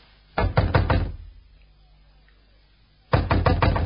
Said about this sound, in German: Der Große nickt und klopft. Pause. Niemand da? Klopfen Sie noch einmal